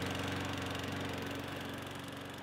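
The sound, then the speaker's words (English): A lawn mower runs while mowing the lawn on a hot afternoon, giving a continuous mid-pitched engine drone with a fast, even chugging pulse and no breaks. “Well, I gotta mow the lawn, dear.”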